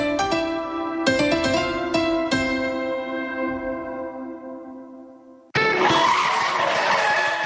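Car tires squeal under hard braking, a loud high-pitched screech with several sharp renewed bursts that slowly fade. An abrupt, loud rush of broad noise then cuts it off.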